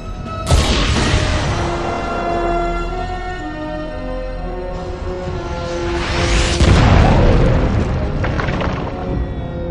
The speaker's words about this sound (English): Oh, he's going to fire it. He's firing it. Torpedoes away.